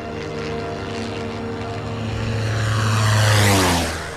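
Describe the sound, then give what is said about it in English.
Steady propeller drone of a light aircraft flying over the sea, a harmonic engine tone that swells to its loudest near the end, then its pitch drops and it fades slightly as the plane passes. “A light aircraft flies over a sea.”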